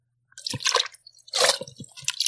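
Wet squishing and dripping of water as a man's dirty feet are washed by hand, with a few uneven bursts of splashy, sloshing sound separated by short pauses.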